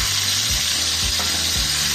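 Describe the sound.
Olive oil sizzles in a pan with cooked chicken, giving a steady, dense, crackling hiss that continues unbroken throughout and is heard alone.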